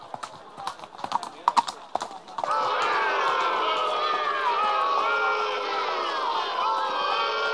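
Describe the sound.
Hooves of armed troops' horses galloping, a quick clattering run of hoofbeats for a couple of seconds, after which a loud, sustained roar of many crowd voices takes over.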